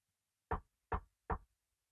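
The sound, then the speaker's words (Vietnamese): Knocking on a door that is locked from the inside: three sharp, evenly spaced knocks in quick succession, alone in quiet surroundings. “gõ cửa thì vẫn không thấy ai mở cửa cả”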